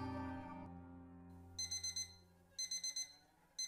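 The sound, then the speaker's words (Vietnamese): An alarm clock rings in rapid, high electronic beeps grouped in bursts of four with short pauses between them; the third burst is cut off. A brief fading tone comes before the ringing. “Tiếng chuông báo thức khiến cho Nhi giật mình tỉnh giấc.”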